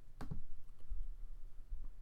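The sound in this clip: A few soft clicks of a computer mouse clicking on a link: a quick pair close together, then fainter single clicks, all quiet and brief.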